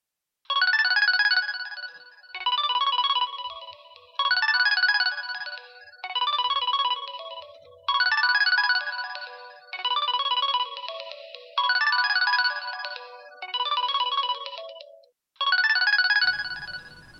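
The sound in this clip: A mobile phone kept in a handbag rings with a bright electronic melody, repeating in nine even phrases of high chiming tones separated by short gaps, with nothing else heard.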